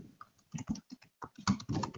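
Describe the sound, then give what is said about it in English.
Typing on a MacBook Pro keyboard: a faint, irregular run of quick key clicks in short bursts with brief pauses between them. “hate these MacBook Pro keyboards. They're horrible.”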